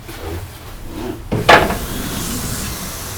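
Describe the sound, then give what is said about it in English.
A window being opened: a brief wooden scrape and rattle with a hissing rush of air in the middle, set against steady low background noise. “open the window,”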